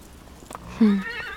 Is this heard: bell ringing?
no

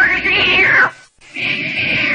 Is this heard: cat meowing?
yes

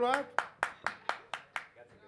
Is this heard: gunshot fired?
no

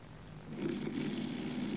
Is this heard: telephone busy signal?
no

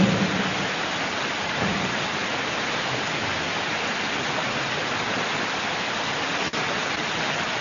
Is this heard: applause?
no

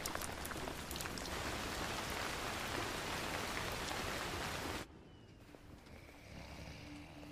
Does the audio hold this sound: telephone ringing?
no

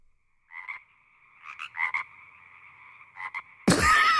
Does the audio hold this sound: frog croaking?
yes

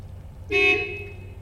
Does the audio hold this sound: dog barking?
no

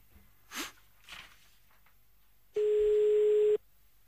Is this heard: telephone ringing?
yes

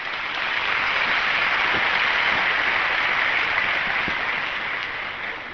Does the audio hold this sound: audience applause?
yes

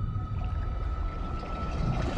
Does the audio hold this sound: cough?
no

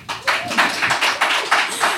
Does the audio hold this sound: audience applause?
yes

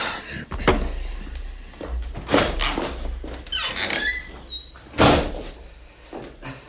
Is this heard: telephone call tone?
no

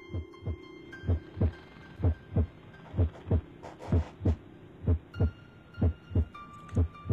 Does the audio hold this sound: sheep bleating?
no

